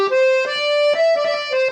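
Harmonium played with two middle reed settings combined, the violin setting, giving a bright, buzzy, reedy tone. A short run of sustained notes is held and changed a few times, steady and fairly loud, with no voices.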